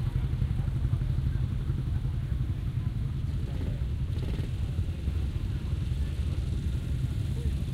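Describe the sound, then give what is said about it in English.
Classic British motorcycles, among them Triumphs, Nortons, BSAs and Matchless machines, ride into an arena in a dense, steady, low engine rumble with no single rev standing out. “Keep them coming, folks. Come on, let's get this arena full of bikes.”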